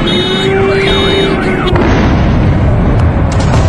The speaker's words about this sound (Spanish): la banda sonora, la trágica banda sonora, en muchos lugares del mundo, la ponen las bombas.